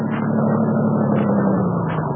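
A car engine runs in a steady, low, droning hum. Its pitch sags slightly toward the end, and there is no break in the sound.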